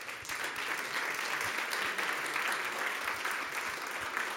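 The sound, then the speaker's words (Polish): Applause from an audience at an awards ceremony: dense, steady clapping that holds at an even level from start to finish, with no clear voices. “I ogromne brawa.”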